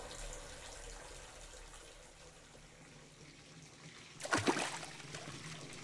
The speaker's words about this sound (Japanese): 温泉の温度に体を慣らすために温泉のお湯を体にかけるんだ。